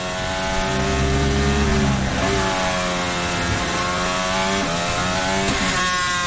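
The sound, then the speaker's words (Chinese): Racing car engine with a drivetrain power problem, a loud continuous drone with a layered harmonic whine whose pitch drops and then holds steady. “我们看 这是什么声音？ 传动方面的一个问题吧。 哦， 动力方面的问题。”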